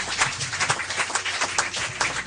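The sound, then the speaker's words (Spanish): Church audience applauding, a dense, steady clatter of many hands clapping together at an even level throughout, with no voices standing out. “Denle el aplauso que vive y permanece.”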